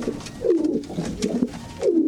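Carrier pigeon cooing in a few soft, low, throaty calls, each with a rolling downward slur. The calls are spaced over a steady background hiss.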